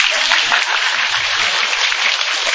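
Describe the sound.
A loud, dense round of applause fills a Buddhist Pure Land retreat hall as the gathered practitioners clap together, a steady, unbroken hiss of many hands from start to finish.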